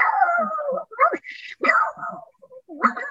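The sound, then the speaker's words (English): A human voice imitates a pug barking, producing a run of strained, nasal yaps and whiny yelps in short bursts separated by brief gaps, some pitched higher and thinner than others. “So I actually used the voice to bark like a pug.”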